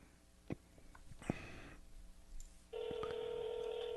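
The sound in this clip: A telephone is dialed to place a call during a phone test. A few faint clicks and taps come first, then a steady electronic tone starts and holds unbroken to the end. The whole clip is quiet.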